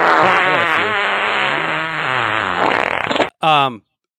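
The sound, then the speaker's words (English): A fart sound effect: a long, loud, buzzy blast with a wavering, rising and falling pitch, then a short gap and a second brief burst. “I was hoping that you had a fart soundbite for that. I got a couple.”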